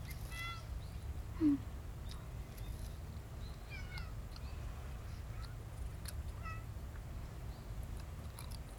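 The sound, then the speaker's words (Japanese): Cats meowing at feeding time, among them an old cat that came late to the food: a few faint, short meows rise briefly over a steady low background hum. “あれあれ、一緒に出遅れたメアニ猫ちゃんもおじいちゃん猫ちゃんも焦らんとゆっくりお食べ。”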